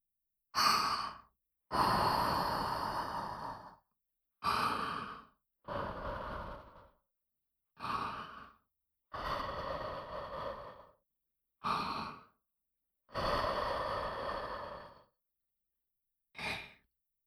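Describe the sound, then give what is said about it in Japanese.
Breathy puffs of someone blowing on a drink to cool it before giving it to a little boy: nine soft bursts of air separated by pauses, some short and some drawn out, with no talking. “ふうふうするから待っててね。”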